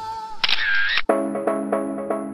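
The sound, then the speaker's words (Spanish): Electronic sounds of a photo booth taking a photograph: beeps and a bright warbling tone, then an abrupt shutter-like click, followed by a sustained, rhythmically pulsing electronic tone. There are no voices. “Bienvenido al fotomatón. Permanezca inmóvil mientras sacamos su fotografía para el DNI.”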